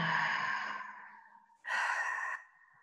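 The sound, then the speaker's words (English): A slow, deep breath in and out during a guided relaxation exercise: two long, soft, airy breaths with a short pause between them, the second one louder and more abrupt. “Go ahead and just take a deep breath in and let it out.”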